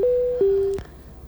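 A telephone call being picked up: a steady electronic line tone steps slightly lower in pitch partway through, then is cut off by a sharp click, leaving faint line noise.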